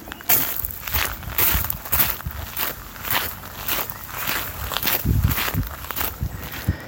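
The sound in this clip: Footsteps walking along a path: many crisp steps in a steady, even walking rhythm, each a short scuffing tread, with no voices and only a faint background hiss.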